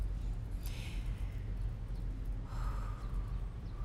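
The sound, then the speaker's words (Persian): Slow, deep breathing during a guided relaxation with eyes closed: two long, airy breaths, each swelling and fading softly over a steady low background rumble. “خیلی خوب، بیا چشمامونو ببندیم و چند تا نفس عمیق و حسابی بکشیم.”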